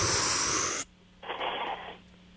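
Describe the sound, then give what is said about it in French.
A deep inhale during a breathing exercise: a loud, airy rush of breath, then a short pause and a second, softer breath sound. “Juste trois fois, on inspire puis on expire. OK? Suis-moi. On va commencer par inspirer.”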